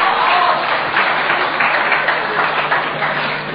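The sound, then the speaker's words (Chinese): Applause from the audience of a Chinese comedy stage show as a senior performer is called out: a steady, dense wash of clapping that holds throughout and eases slightly at the end. “哎，这还有掌声，你瞧瞧，还有掌声。”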